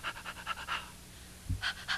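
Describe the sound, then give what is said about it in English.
A person pants in and out as a vocal warm-up for singing: a quick run of short, breathy huffs, then a pause broken by one low thump, then a couple more breaths. The breaths are moderately loud and stand alone without talk. “Can you pant in and out?”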